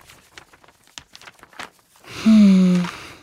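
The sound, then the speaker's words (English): Newly arrived letters being opened: soft, irregular paper rustles and light tearing of envelopes, then a person's sustained, slightly falling voiced tone. “But in the meantime, I'm opening a few special letters that just arrived.”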